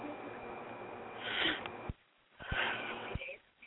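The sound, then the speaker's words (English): A deep breath blown out hard: two long, airy whooshes of exhaled air separated by a short pause, following a stretch of steady low background noise. “All right, take a deep breath. Blow it away from me.”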